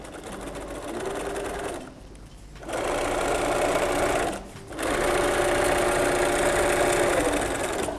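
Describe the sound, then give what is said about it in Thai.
A sewing machine stitching thick fabric, a steady mid-pitched mechanical whir in three runs separated by two brief pauses, with the last run the longest as the seam is sewn forward and then back. “แล้วเราก็วางลงเราก็เย็บนะคะมันถึงจะเย็บได้สุดแล้วเราก็ย้อนกลับมาอีกหนึ่งครั้ง”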